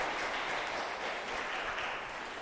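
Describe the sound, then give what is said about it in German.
Faint, steady applause from an audience clapping for a child starting school, an even wash of many hands that barely changes in level. “Mal einen kleinen Applaus für unseren Schulanfänger, der aus dem Bett gekommen ist heute Morgen.”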